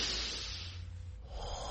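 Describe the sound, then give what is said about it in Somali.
Deep breath taken during a calming exercise, an airy hiss that softens briefly in the middle and then swells again. “ma doonaysaa inaad isku dayda inaad neef dheer qaadataan haye bilaaba”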